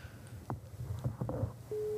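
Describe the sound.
Ringback tone of an outgoing telephone call: a few faint clicks, then a loud steady mid-pitched tone sets in just before the end and holds.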